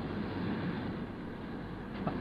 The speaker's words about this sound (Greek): όλο έπαιρνε νέα από τις ρόδες, από τις ράγες, από τις μηχανές που στιγμή δεν έπαψαν να πηγαίνουν και να έρχονται